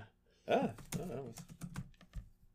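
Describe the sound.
Rapid typing on a computer keyboard: a quick run of sharp, uneven clicks with a brief vocal sound near the start.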